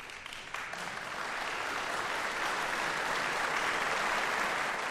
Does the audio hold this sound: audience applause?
yes